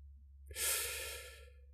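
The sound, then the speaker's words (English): A deep breath during a guided breathing exercise: one long, airy exhale swells quickly, then fades slowly over about a second, soft and breathy, with no talk. “So I would join you to breathe out and in with me like this.”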